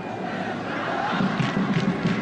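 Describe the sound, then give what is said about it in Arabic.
Football crowd cheering at the reopening of a Lebanese stadium for a league derby between Nejmeh and Ansar, a dense, steady roar of many voices that swells slightly in the second half. “ووسط هتافات الجماهير الحاضرة”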